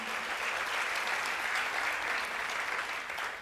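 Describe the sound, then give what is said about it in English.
A church audience applauds to welcome the online community, with dense, even clapping that holds steady throughout and eases slightly at the very end. “Would you put your hands together and welcome our e-community?”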